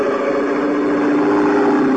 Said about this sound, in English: At the back was a powerful motor with a propeller of the airplane type.